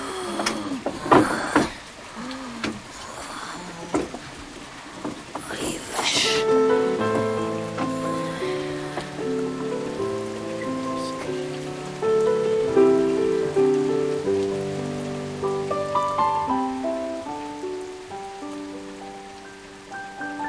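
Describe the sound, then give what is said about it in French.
Heavy rain falls as a constant, steady hiss, mixed beneath music with sustained held notes that rise in level partway through. “Ce qui pleut, quelle vache de temps. Ça, c'est une trompe, un cyclone.”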